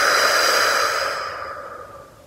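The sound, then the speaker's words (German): A long, breathy exhale through the mouth during a guided meditation breathing exercise, starting fairly loud and gradually fading over about two seconds, with no voices. “Nimm einen tiefen Atemzug und atme aus durch den Mund.”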